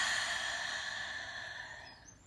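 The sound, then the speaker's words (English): A deep breath released in a long, soft, breathy sigh during a guided meditation, steady at first and slowly fading away, heard alone with no talking. “Let's take a deep breath in and release.”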